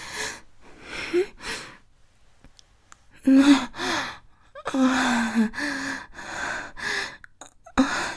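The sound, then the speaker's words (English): Heavy breathing and soft moans from a person during intimate touching. Many irregular bursts of breathy exhales and gasps come through, some carrying a low voiced moan, with quiet gaps between them. “Something about hearing you moan and breathe right in front of me is electrifying.”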